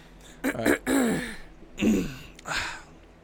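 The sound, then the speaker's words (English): A person clears their throat at a microphone before performing, one longer rasping clear followed by two shorter ones, loud and alone. “Get it clear your throat like you're about to start and then take a gulp.”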